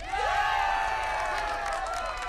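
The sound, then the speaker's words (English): Crowd cheering for a performer, a steady wash of raised, sustained shouting voices that holds at an even level for the whole stretch. “Bathing in the applause, she holds her arms out”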